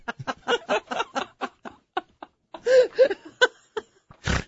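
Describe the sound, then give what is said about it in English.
A person laughing in bursts of giggles and chuckles that break into a short, harsh nasal snort at the end. “Sorry for my Chrissy Snow-like snort there.”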